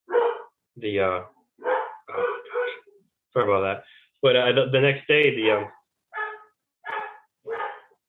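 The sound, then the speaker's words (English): Dogs barking in a long series of loud, harmonic barks separated by short gaps, many bursts in quick succession. “My dogs hear that and they're barking now.”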